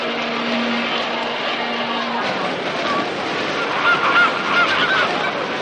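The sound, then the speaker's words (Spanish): Honking of a flock of large, goose-like birds flying overhead: several short, nasal honks cluster in the second half over a dense, steady wash of background noise. “De repente, Toby se detiene un instante y mira hacia el cielo. Una bandada de pájaros grandes sobre él.”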